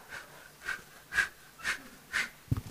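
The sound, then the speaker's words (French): Breath blown onto charcoal to get it burning: five soft, breathy puffs at an even, steady rhythm, each a short airy whoosh against a quiet background. “Soplar. On a besoin de souffler.”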